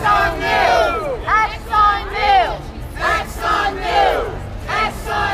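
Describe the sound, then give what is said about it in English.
Climate change protesters outside a New York City courthouse chant a short phrase over and over in loud unison at the start of a trial against ExxonMobil, each repetition forming a rhythmic burst of many voices. “That's the sound of climate change protesters outside a courthouse in New York City this week as a trial against ExxonMobil got underway.”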